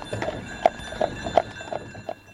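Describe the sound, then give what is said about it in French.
Hooves of a horse pulling a carriage clip-clop at a steady pace: a few moderate, fairly regular hoof knocks over a continuous background hum, with no talk. “J'ai bien aimé la calèche aussi, ça ne pollue pas.”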